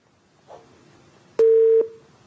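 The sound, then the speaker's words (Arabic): A telephone busy tone after a call drops: a faint tone hums first, then one loud, steady mid-pitched beep lasts just under half a second and cuts off. “معلش انقطع الاتصال، هنتظر الاخت اسماء مره اخرى.”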